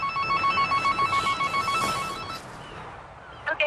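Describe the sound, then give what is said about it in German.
An animal rescuer's telephone rings for an incoming call: a rapid warbling electronic ringtone pulses in a quick series over a faint background hiss, then stops, leaving only a brief noise near the end. “Er weiß, es dauert nicht lange, bis der nächste Anruf kommt.”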